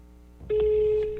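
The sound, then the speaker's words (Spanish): A telephone tone sounds on an unanswered call to a switchboard in Bogotá: a steady, unbroken single-pitched tone begins about half a second in and holds to the end over low background hiss. “Y ahí estoy llamando, Conmutación Bogotá, y no responde.”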